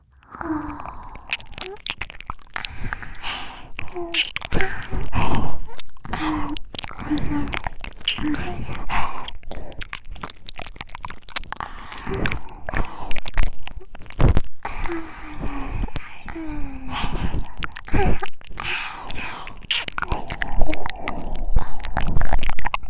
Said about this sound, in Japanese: それじゃあ早速お耳ペロペロしちゃうね。いただきます。